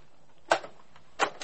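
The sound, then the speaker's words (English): Cassette tape player buttons being worked to rewind and play: two sharp mechanical clunks with a smaller click after each. “Play that last bit on the cassette again. Play it again.”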